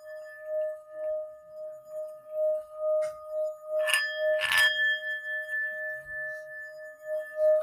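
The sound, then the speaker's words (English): Singing bowl sounded during a meditation, giving a faint, steady ringing tone that pulses and wobbles slowly, broken midway by a couple of brief, brighter scratchy bursts before the hum resumes. No voices. “I want you to stay focused on my voice and the singing bowls.”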